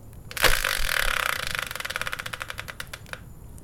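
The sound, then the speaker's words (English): A subject randomizer wheel is spun, opening with a thump, then a rapid run of ticking clicks that gradually slow and spread apart before stopping. “So let's bring in the subject randomizer and give it a spin.”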